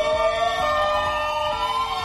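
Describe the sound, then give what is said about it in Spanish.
Ambulance sirens sound loud and steady as the vehicles cross Oviedo in a convoy carrying patients from an old hospital to a new one. The wailing tones hold a nearly constant pitch throughout, with no voices. “Son las ambulancias que cruzaron Oviedo desde el Cristo a la Cadellada para trasladar a los 270 enfermos que había en ese momento en el viejo Hospital Central de Asturias”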